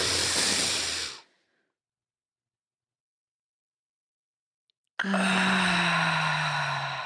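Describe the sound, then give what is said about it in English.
A group taking a deep breath together during a calming exercise: a loud, airy inhale of about a second, roughly four seconds of silence while the breath is held, then a strong breathy exhale with a low voiced hum in it. “So let's close our eyes, take a deep breath and hold it at the top.”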